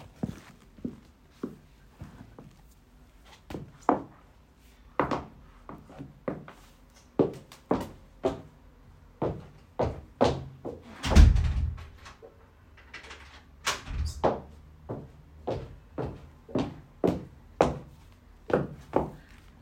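Someone walks over to check whether a door is locked: a long series of evenly spaced soft thuds, like footsteps, with a heavier clunk near the middle, then more steps at a similar pace.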